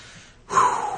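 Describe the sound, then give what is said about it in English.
A deep breath drawn in sharply, a short quiet pause followed by a loud, airy rush of inhalation that holds steady to the end. “Whoa, did you have to just... Whoa. You just had to do a deep breath? Wow.”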